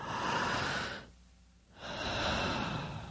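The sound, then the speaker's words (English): A deep breath drawn in as a loud airy hiss, a brief quiet pause, then an equally long breath let out to calm down. “that's taking a deep breath, breathing air in all the way and then breathing it out to calm you down”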